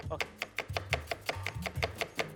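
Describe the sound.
A knife chops food in a quick, steady rhythm of many crisp taps, each a sharp short knock, with a low tonal hum running underneath.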